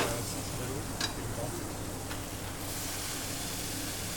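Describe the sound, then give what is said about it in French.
Potatoes frying in oil for their first cooking give a faint, steady sizzling hiss, with a couple of brief crackles in the first half. “Je coupe la patate pour mettre à cuire la première fois. Maintenant, je vais sortir mes patates parce que j'ai prêt la première cuisson.”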